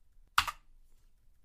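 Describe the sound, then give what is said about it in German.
A single press of the F9 key on a computer keyboard gives one short, sharp plastic click, with a softer second click just after. Near silence surrounds it. “auf F9 drücken, damit sich alles aktualisiert”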